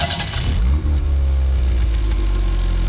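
A car engine runs on a typical morning, a loud, low, steady rumble with a brief dip early on and no talk.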